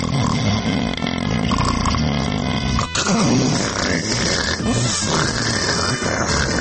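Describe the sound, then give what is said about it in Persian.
A voice imitates snoring on both the inhale and the exhale, producing rough, rattling grunts and raspy drawn breaths that repeat in a few cycles. “بنابراین شما توفیقی دارید که از دو صدای جداگونه در یک خروپوف بهره‌مند بشید.”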